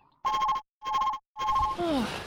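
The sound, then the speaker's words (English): A telephone rings in three short, loud bursts with brief silent gaps between them, followed by a brief falling tone. “I'm ringing her up right now.”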